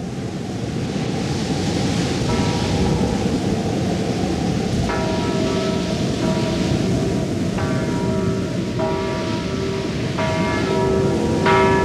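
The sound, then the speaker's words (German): A single village church bell, rung by pulling its rope during a flood, tolls several times at a slow, uneven rhythm through loud, constant rushing noise of storm and water. “Packt den Strick der einzigen Glocke, um die Bauern der weit verstreut liegenden Gehöfte wachzumachen.”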